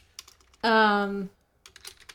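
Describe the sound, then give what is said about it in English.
Typing on a computer keyboard: a few quick key clicks, then a short, loud sustained voice sound, followed by a burst of rapid keystrokes. “I'm going to go ahead and type in what I know this is.”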